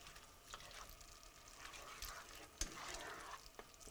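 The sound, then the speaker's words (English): Fresh tomato sauce simmering in a pan gives a faint, steady sizzle and soft bubbling, broken by a few louder stirring scrapes and splashes. “Mix. Turn down a bit and let simmer about 10 minutes or until the tomatoes are really broken down beautifully.”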